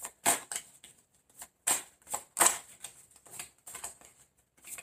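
Tarot cards being shuffled and drawn during a reading: a few brisk, papery riffles and slaps, faint and separated by short pauses.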